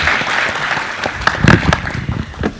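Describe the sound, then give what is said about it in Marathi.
Applause for a performer from an audience at an event: a broad, continuous clapping texture, with a few sharper, louder bursts in the middle, lasting under three seconds. “जोरदार टाळी होऊन जोडत अंकिता जोशी यांच्यासाठी.”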